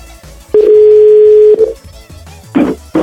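A steady telephone dial tone sounds as a call is placed: one flat, mid-pitched hum lasting about a second, followed by a few short, noisy bursts.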